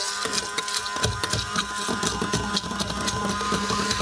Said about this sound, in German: Das wird jetzt püriert. Ich hoffe, er funktioniert. Ja, funktioniert.